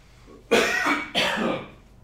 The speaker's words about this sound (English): what do I got in my throat? Hold on, let's just stand by.